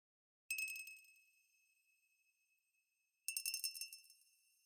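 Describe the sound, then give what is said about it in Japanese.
A magic muddler clinks against a glass while stirring: one bright, ringing clink that slowly decays, then after a pause a quick cluster of rattling clinks, faint and alone. “魔法のマドラーの音が心地よくて、気持ちよくて、 さっきよりも深いところに沈んでいく。”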